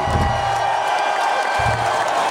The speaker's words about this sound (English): Wow, how come he gets a cheer like that? We never got that.